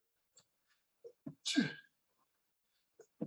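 One sharp sneeze, fairly faint, just after a short breath intake, with a few tiny clicks scattered around it.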